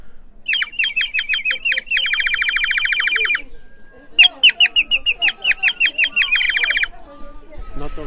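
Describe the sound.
Warbling trills from a bird whistle filled with water: two long bursts of rapid, high chirping notes with a short pause between them. The notes are bright and fluttering.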